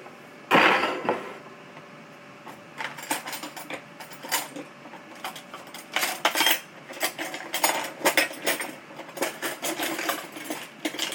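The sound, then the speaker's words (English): Dishes and cutlery clink as a bowl and a teaspoon are taken out for a simple snack. Many irregular metallic clatters and knocks follow one another, with no talking. “So we're going to get a bowl here. Going to get a teaspoon”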